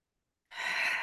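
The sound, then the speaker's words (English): One deep breath drawn during a guided breathing exercise, rising suddenly out of silence and continuing as a steady airy rush. “Let's do three deep breaths.”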